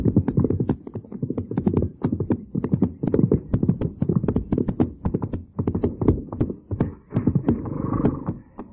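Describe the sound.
Horses' hooves clip-clop as riders head over to a fort, a steady stream of many quick, overlapping thuds at moderate loudness that continues throughout.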